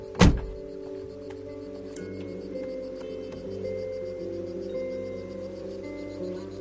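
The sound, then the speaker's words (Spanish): A man gets out of a car. A single heavy door thunk comes at the start, followed by a quiet, steady low hum with soft sustained musical tones. “Kinney sale del coche.”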